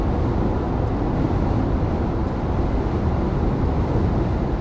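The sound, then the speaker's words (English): A car drives through a highway tunnel on the Pennsylvania Turnpike, making a constant, loud, low road and engine roar that stays even throughout, with no breaks and no talking. “right now, I'm driving through one of the famous tunnels of the Pennsylvania Turnpike. One out of three tunnels from my way to Philadelphia.”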